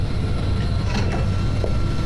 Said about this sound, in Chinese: 关闭吸尘器。 好的，主人。 夏总办公室里的电器都是通过语音来控制的。